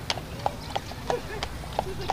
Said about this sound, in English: the rhythmic gait of a carriage horse in New York City.